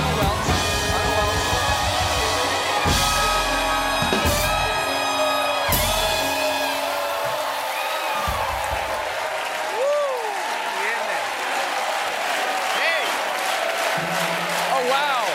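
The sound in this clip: A Friday studio audience at a late-night talk show cheering and applauding, with loud continuous clapping, whoops and shouting voices that stay strong for the whole stretch.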